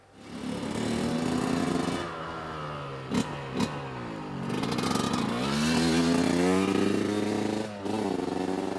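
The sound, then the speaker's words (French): A motorcycle on knobby tyres, built for acceleration and standing starts, revs and accelerates, its loud engine note climbing in pitch through repeated surges, with a brief dip before a final sustained roar. “Votre moto est équipée de pneus à crampons, un véhicule qui n'est pas spécialement conçu pour la vitesse, mais bien pour l'accélération et les départs arrêtés, avec des suspensions plutôt souples pour amortir les chocs.”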